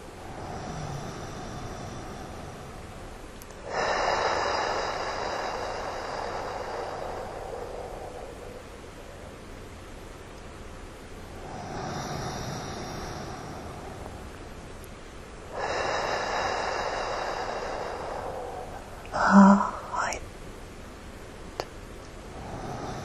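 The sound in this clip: Slow breathing during a guided breathing meditation: a few long, airy breaths that swell and fade with quiet gaps between them, then a brief sharp sound near the end.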